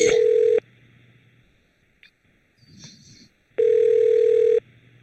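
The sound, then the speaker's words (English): Telephone ringback tones during a call transfer to an extension: two long, steady, loud tones separated by a quieter gap with faint rustling and a brief click between them. “Awful lot of beeping and ringing.”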